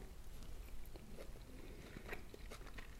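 Quiet chewing of tuna with a little rice: soft, moist mouth sounds with a few sharper bites and clicks scattered through, no talking.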